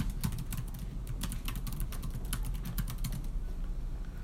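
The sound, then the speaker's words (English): Rapid typing on a computer keyboard: a dense, steady stream of sharp plastic key clicks with no pauses and no talk. “I typed it in right, I think.”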